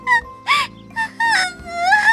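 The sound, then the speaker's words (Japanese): Wailing cries from a person: a few drawn-out, loud tonal bursts with wavering, quivering pitch, separated by short gaps, with no other sound. “オーメイが意地悪するから泣いちゃったじゃない。”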